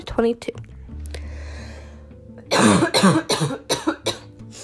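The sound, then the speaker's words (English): Coughing from someone sick with COVID and in quarantine: a few short sounds at the start, then a quiet stretch with a low hum, then a fast run of many harsh, loud coughs. “Also, I will be coughing a lot. I am still in quarantine. I have COVID, which sucks.”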